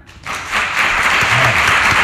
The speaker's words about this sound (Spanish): Y que aplauda quien quiera a Guardiola como seleccionador nacional de España. ¡Ya!